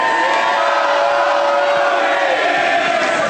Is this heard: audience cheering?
yes